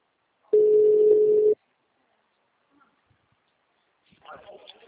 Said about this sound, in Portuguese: Peraí que tá chamando.